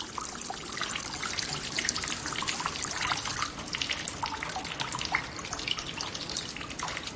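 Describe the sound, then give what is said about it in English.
Steady trickling and dripping water across inches of flooding on a penthouse floor after sprinklers shut off, a continuous wash of small splashes and many quick drips at an even, moderate level with no voices. “The man looks around at the flooded space. Inches of water cover the floor. Views from around the penthouse show water rippling and dripping.”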